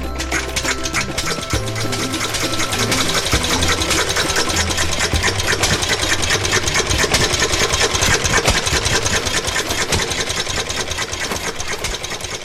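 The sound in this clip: An early Daimler motor car engine starts and runs on its drive between Cannstatt and Untertürkheim: a rapid, dense mechanical clatter like a sewing machine, loud and even throughout, with no voices.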